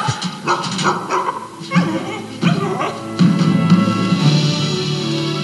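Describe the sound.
A dog barks and whimpers in a few uneven bursts of yelps and high, wavering whines, loud throughout, with some talk mixed in.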